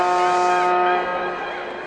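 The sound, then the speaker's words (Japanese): A basketball game horn sounds as a loud, steady, buzzing blare that fades to a lower level after about a second, with game noise underneath. “お、またホーンが鳴った”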